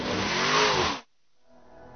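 A car engine roaring during fast stunt driving, a loud, broad, throaty drone with a faint shifting whine that cuts off abruptly after about a second and leaves near silence.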